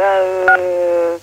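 Telephone keypad tones from someone playing with a phone: a sustained electronic tone with a short, sharper beep layered on it midway, then an abrupt cutoff.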